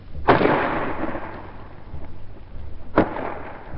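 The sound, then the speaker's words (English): A 5.5 gun fires at point-blank range, about 250 yards, at a fort wall during a wartime assault, and the shell then bursts on the wall. Two sharp, heavy bangs about three seconds apart, each trailing a long rumbling decay. “First, a 5.5 gun fired at the wall of the fort for an hour or more at point-blank range, about 250 yards. The first bang you heard was the gun firing, and the second was the shell bursting on the wall.”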